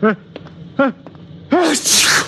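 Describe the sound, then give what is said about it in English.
A person sneezes: a few short voiced gasps build into a rising 'ah' that breaks into a loud, breathy, hissing burst before trailing off. “My eyes just water, my nose runs, and I sneeze because I'm essentially a masochist.”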